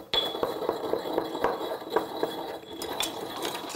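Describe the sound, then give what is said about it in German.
Coarse unrefined salt is crushed in a mortar, giving a continuous, gritty crunching full of small clicks and scrapes at a fairly low, even level. No one speaks. “Und das gebe ich jetzt dann in einen Mörser, um es ein bisschen klein zu machen.”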